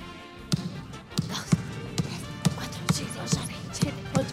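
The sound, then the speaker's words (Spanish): A ball bounces like a basketball player dribbling, giving nine steady, evenly spaced hollow thuds in a quick, regular rhythm. “Picando. Está picando la pelota. Es un basquetbolista picando la pelota.”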